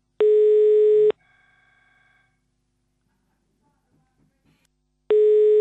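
Telephone line tone during a call to the police: a steady low beep about a second long, then near-silence with a few faint clicks and tones, then the same beep returning.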